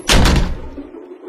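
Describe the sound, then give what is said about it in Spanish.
Doors opening with a sudden loud, heavy thud, followed by a low rumbling resonance that slowly fades out. “Aguarda un momento, porque las puertas se están abriendo.”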